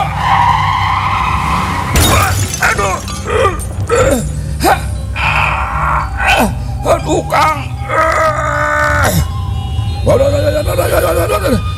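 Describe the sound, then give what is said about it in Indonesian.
A motorbike skids and hits a person: a loud, harsh crash near the start, then shrill cries, groans and agitated voices continuing throughout. “Aduh, edan celaka teh katubruk motor. Katabrak motor.”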